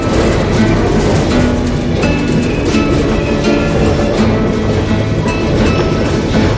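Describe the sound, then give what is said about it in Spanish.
Train leaving a station in a Western setting, heard as a loud continuous rumble with dense mechanical clatter and rattling that stays steady throughout, with no voices. “Poco a poco el tren de las 3 y 10 abandona la estación de Contation.”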